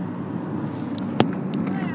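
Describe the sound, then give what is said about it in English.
Steady road rumble and engine drone inside a moving car, a broad, even noise with one brief sharp knock partway through and faint voices underneath. “I can't see, sure, I'm driving the car.”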